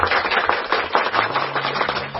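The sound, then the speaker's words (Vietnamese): A round of applause welcoming a guest, made of distinct, uneven claps from a small group rather than a dense roar, rising and dipping in loudness and staying fairly soft overall. “Một tràng pháo tay để chào mừng anh bạn mình.”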